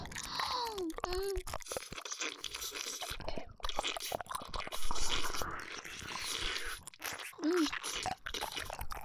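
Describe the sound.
A crunchy snack being bitten and chewed, with repeated crisp crunches at a fairly low level, mixed with brief murmurs from a voice.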